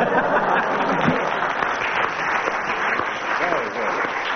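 Audience applause and acclaim for a comic routine at an estate agents' ball, dense and steady clapping at a strong level throughout.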